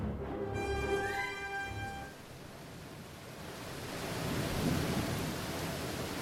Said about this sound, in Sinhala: වැස්ස සුළඟ දෙක තදින් පැවතුණු ගිම්හාන ඍතුවට අයිති ඒ දවසේ ලියුම් බෙදන්න ආවෙත් හොඳටම ප්‍රමාද වෙලා.